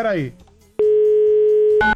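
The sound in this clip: A telephone dial tone sounds while someone places a call: a brief voice comes first, then a loud, steady, unbroken tone holds for about a second before a short burst of another sound ends it.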